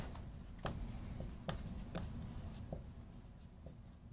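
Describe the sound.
Writing on a board during a math lecture: scratchy strokes with a few sharper taps as marks are made, over a constant low background rumble and without speech.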